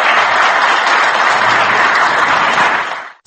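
Loud, dense applause from a standing ovation in the Yerevan city council after a new mayor's election, holding steady for about three seconds before cutting off abruptly.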